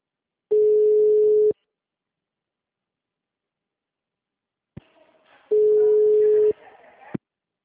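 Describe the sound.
A telephone busy tone sounds after a dropped call: two steady, mid-pitched beeps, each about a second long, separated by a few seconds of silence. The second beep has faint background noise around it.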